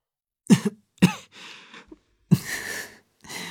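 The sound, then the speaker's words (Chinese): A person coughs a few times while holding back laughter. The coughs are short, sharp bursts, with breathy, throaty sounds between them. “钟婉咳了两声，忍着笑道”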